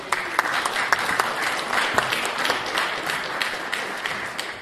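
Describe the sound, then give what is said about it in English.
Audience applause at a Sunday school gathering: steady, dense clapping at a moderate level that continues evenly without a break. “That deserves a little clap, I think.”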